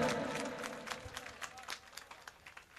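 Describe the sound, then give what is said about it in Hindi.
Clapping from a gathering as a guest is honoured, a short dense burst at first that thins into faint, irregular individual claps. “जोरदार ताली बजा”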